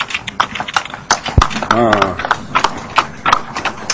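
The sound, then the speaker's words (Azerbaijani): Horse hooves clip-clop in a steady run of many regular beats from a working horse on a village road in rural Azerbaijan, while voices talk loudly over them. “At, çox yaxşı heyvandır.”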